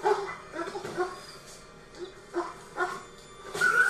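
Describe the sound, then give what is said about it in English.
Whimpering and yelping from a dog being stomped in a film scene, a few faint, short, high cries rising and falling at irregular intervals over a low background. “when he stomped the dog to death, I didn't like that”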